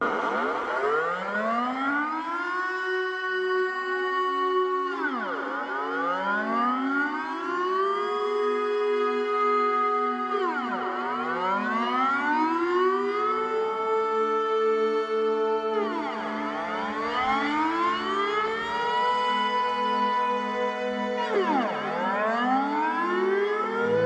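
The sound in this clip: A monthly civil defense alarm siren, sounding different from usual, wails continuously. Its pitch sweeps up and falls back in repeated cycles about every five seconds, loud and steady with nothing else heard.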